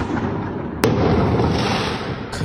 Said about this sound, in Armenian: Սահաթաշ չէ մարտական ֆիլմից, այլ հրավառություն՝ գիշերը 1:30-ի սահմաններում, Սարյան-Պուշկին փողոցներում։